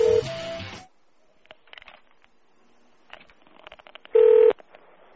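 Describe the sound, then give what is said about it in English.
Telephone keypad tones entering a number for an automated calling service. Two loud, steady electronic tones open and near-close the passage, with faint clicks and short beeps between them. “To place a call, please enter the phone number you would like to dial, followed by the pound key.”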